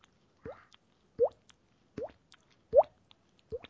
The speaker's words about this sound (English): Like you see a leaky faucet, maybe, you know, a leaky faucet going on.